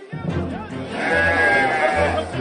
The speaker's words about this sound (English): It is Nizwa, a marketplace that really lives and breathes goats.